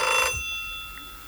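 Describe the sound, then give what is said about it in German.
A telephone bell rings in one short, loud burst and then cuts off, leaving a steady faint hum with a few thin sustained tones. “Telefon. Ja, ich gehe nicht ran.”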